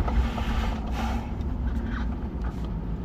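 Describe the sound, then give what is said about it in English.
Steady low engine and road rumble from a car being driven, a constant droning hum with no talk and no clear changes in speed. “So I'm driving right now to go to the drive-thru Starbucks.”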